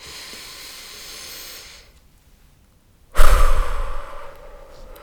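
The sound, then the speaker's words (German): A deep breath during a relaxation exercise: a soft, airy inhale, a short silent pause, then a louder, sighing exhale that starts abruptly and slowly trails off. “atme ich immer einmal tief ein und tief aus.”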